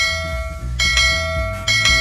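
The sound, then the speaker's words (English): A farm bell rings with a few clear strikes, each over a sustained, shimmering metallic tone that carries between hits. “You get the cowbell. You get the farm bell.”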